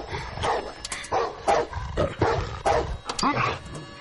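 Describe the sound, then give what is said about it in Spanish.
A dog barks harshly and rapidly beside a car at an abandoned factory in a thriller film scene, giving a continuous run of loud, rough barks and growling yelps. “El perro va tras ella, la alcanza y muerde la mochila. Ella sube al coche. El perro salta contra la ventana.”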